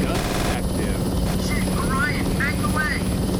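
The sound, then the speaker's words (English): A helicopter in a video game makes a dense, steady droning roar that holds at an even level throughout, with faint talk over it. “Chopper at 6 o'clock,”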